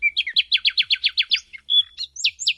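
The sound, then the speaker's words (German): Nightingale song: a rapid run of repeated high, chirping notes, followed by a few separate sharp whistled phrases. Clear and fairly loud, with no voices. “Ja, ein Nachtigall.”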